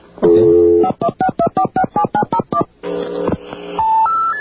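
Touch-tone telephone dialing: a longer steady tone, then a quick, even run of about nine short, loud beeps, then further steady tones at the end.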